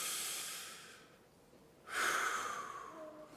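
Slow breathing in and out during a worship service: a soft airy rush, a short pause, then a louder, longer breathy exhale that fades. It is faint overall, with no talking.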